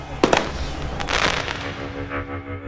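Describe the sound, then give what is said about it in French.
Tear gas grenades fired during a clash at a protest against a reservoir project's construction site: two sharp, loud bangs close together, then a rough, crackling roar of bursts and noise that slowly fades. “Des grenades lacrymogènes sont tirées par milliers.”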